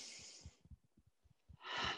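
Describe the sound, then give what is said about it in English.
A slow, deep breath taken during a guided tapping exercise: a soft, airy inhale, a pause with a few faint low knocks, then a fuller, breathy exhale, quiet throughout. “Take a big deep breath.”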